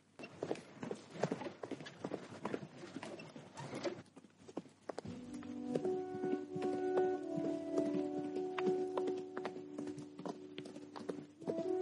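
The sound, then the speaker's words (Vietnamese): Hooves clip-clop in a quick, uneven trot as three prized horses, one a pregnant mare, are led along a road. Many faint hoof strikes continue throughout, and a low, steady droning tone joins midway. “Chỉ khi mà rời khỏi địa phận của Đình Châu, hắn mới dẫn 3 con ngựa quý chạy về trung thổ trước.”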